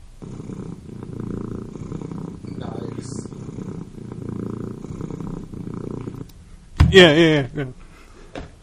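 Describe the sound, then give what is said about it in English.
A pet cat purrs as her feet are massaged, making a steady, low, rhythmic rumble that holds for several seconds before a short, louder sound near the end. “when I massage her feet, she purrs.”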